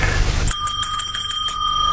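A bell rung by a lord to summon his butler, a bright metallic ring that starts sharply after a moment of low background noise and sustains with a rapid shimmering pulse.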